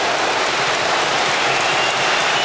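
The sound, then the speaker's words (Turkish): Applause from the stadium stands during a Super Cup football match after a young player's shot, a broad, steady rush of clapping and crowd noise that stays loud and even throughout. “Genç Yunus Akgün'ün şutu tribünlerden büyük alkış aldı.”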